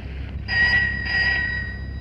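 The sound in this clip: A telephone rings twice in short trilling electronic bursts over a low, steady background hum.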